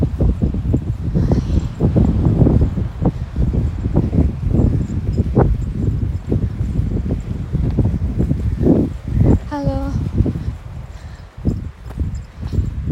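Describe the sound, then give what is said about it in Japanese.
Footsteps crunch over stones along the seaside in Scotland. Many steady, rhythmic scuffs and knocks continue throughout, with faint rustling around them. “今石を歩いております、”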